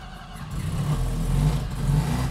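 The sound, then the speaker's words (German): Engine of an NSU Ro 80 car, started with the ignition key after roughly half a year standing, runs with a steady low mid-pitched hum that swells slightly partway through. “Und jetzt Zündschlüssel rum? Wird eine Weile dauern, bis der anspringt, weil er erst den Sprit alles klar hintransportieren muss.”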